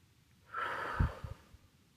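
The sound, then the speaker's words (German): One deep breath in a guided breathing exercise: a soft, airy inhale through the nose, then a short breathy exhale through the mouth with a few low puffs, quiet and alone. “Atme noch einmal tief durch die Nase ein und durch den Mund wieder aus.”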